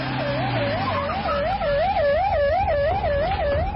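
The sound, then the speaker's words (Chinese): Wailing police sirens from several police cars speeding to the scene: a loud, continuous warbling tone that rises and falls over and over, with a second, higher siren joining partway through. “就在这个时候，几辆警车疾驰而至，”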